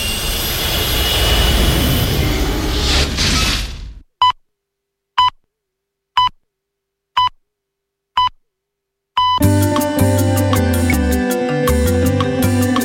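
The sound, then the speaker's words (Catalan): A spaceship takes off in a sound effect: a loud engine roar for a few seconds cuts out, five short evenly spaced beeps follow, then a loud, dense tonal roar returns. “Pugeu a la nau i cordeu-vos bé els cinturons. Doncs tornem al planeta Terra.”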